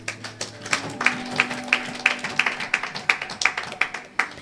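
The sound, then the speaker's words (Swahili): A church audience claps for Jesus during a sermon, a steady, even beat of many sharp, loud claps that keeps a regular rhythm throughout with no talk over it. “Hili nimalizie hapa kwa hilo, na tumpigie Yesu makofi.”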